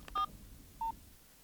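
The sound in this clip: A phone number being dialed: two short, clean keypad beeps separated by a brief pause, faint over a low background hiss.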